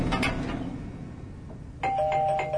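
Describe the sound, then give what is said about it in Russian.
A doorbell rings at a flat's front door: after a stretch of dull background noise, a bright electronic chime starts abruptly and holds steady to the end. “в дверь звонят.”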